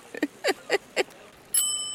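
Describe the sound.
A bicycle bell gives one bright, sustained metallic ring, preceded by four short, evenly spaced chirping sounds.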